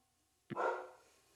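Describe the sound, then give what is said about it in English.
A dog gives a single, fairly faint bark with a sharp onset and a short tail, alone and with no talking. “Oh, dogs. Don't you love them?”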